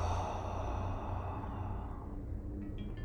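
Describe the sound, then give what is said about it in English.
A deep breath drawn in and let out during a guided relaxation exercise, heard as a long, steady, airy rush of breath that tapers slightly toward the end, with no talking. “allow yourself to take another set of breath, big inhale, And exhale.”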